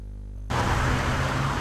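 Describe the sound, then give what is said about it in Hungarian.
Road traffic from a long queue of cars on the Budapest embankment in front of the Technical University, with police directing the flow; a steady, broad roar of traffic noise starts abruptly after a brief quiet moment and holds evenly. “Hosszú kocsisor a Műegyetem előtt a rakparton. A forgalmat rendőrök irányítják.”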